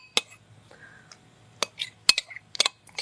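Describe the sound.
Coleslaw ingredients being mixed together in a bowl, giving several sharp, irregular clinks and taps of a utensil separated by quiet gaps.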